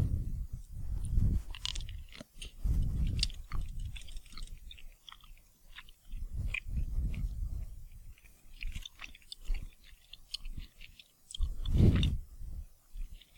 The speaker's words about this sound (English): Tasting something. Mm. Is that loud enough? It tastes like a fruity candy to me.